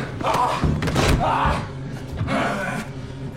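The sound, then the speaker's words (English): Heavy thuds and scuffling during a fight as one man body-slams and throws another: a few loud, broad impacts rise out of a continuous rough struggle. “He body slams Ray. He throws him. Ray shoves him back.”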